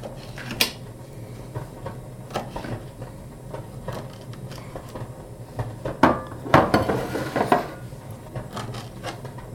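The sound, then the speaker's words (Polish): A knife cuts pineapple rings into fairly large cubes, making irregular taps and knocks against a cutting surface with soft scraping between them. The taps bunch into a busier cluster near the end. “Kroję sobie troszeczkę większą kostkę.”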